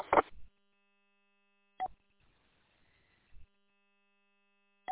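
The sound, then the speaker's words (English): An electronic telephone rings in short, regular beeping pulses over a faint steady tone, each pulse brief and fairly quiet. “Oh, that pesky phone. You try ignoring it, but... I've ignored it already this morning 3 times.”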